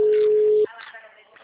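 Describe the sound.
Telephone busy tone after a dropped call: a steady, mid-pitched electronic tone holds for over half a second, then cuts off abruptly as faint talk follows.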